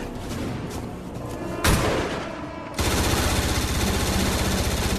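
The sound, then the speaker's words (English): A P90 submachine gun fires in a video game: rapid, loud automatic bursts, including a sharp blast partway through, then sustained continuous fire to the end. “Again, you only saw the P90 fire a couple of times.”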